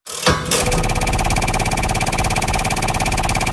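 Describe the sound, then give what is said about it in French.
A game show prize wheel is spun to pick a quiz theme. After a short burst at the start, loud, rapid, evenly spaced clicking runs continuously for about three seconds without slowing. “je vais tout de suite lancer la roue, vous dites stop et on découvre votre thème de jeu”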